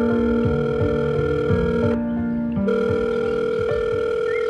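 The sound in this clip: A telephone gives steady electronic tones while a call is placed to an office. The tone holds loud and even, breaks off once for a moment midway, then resumes.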